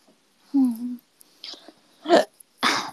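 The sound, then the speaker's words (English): A person hiccups, a few short, abrupt bursts spread across a few seconds, one carrying a brief voiced tone and the others breathy and noisy. “Oh, that was a hiccup, excuse me.”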